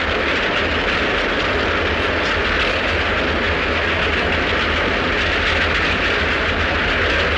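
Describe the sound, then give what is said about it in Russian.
A steam locomotive passes as a loud, continuous rumbling roar with a broad hiss that holds steady throughout. “Мимо проезжает паровоз.”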